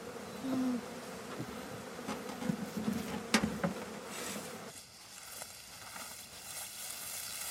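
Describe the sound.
Bees buzz around beehives as a father and daughter tend them, a steady droning hum with a few louder passes in the middle that eases off and grows fainter toward the end.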